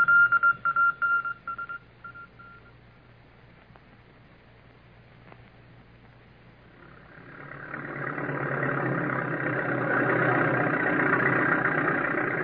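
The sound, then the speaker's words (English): A bulldozer works clearing trees. A few short beeping tones sound at first, then its engine rumble swells up from a quiet lull and holds steady and loud. “Let me watch that bulldozer at work. See how it takes up the trees.”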